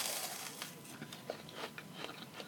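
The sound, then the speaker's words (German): Crisp crunching of a bite into a meringue: a few faint, crackly crunches scattered over a soft, quiet hiss. “du hast noch gar nicht in deinen hervorragenden Baiser gebissen. Ich habe hier noch gar nicht reingebissen. Ich beiß mal rein.”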